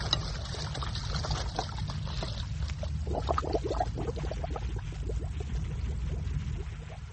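Hot water flowing during a diving operation: a continuous trickling, gurgling wash over a steady low rumble, with busier bubbling in the middle of the stretch, no voices.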